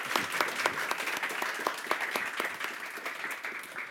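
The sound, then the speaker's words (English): Audience applause greets a guest speaker, a Hong Kong lawyer involved in the protests, at a talk. Dense, steady clapping from many hands continues throughout, easing slightly toward the end. “So please let us welcome him with a big hand.”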